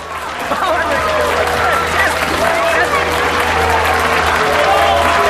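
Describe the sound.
Applause in a crowded wine bar, with dense, sustained clapping from many people and voices heard over it throughout.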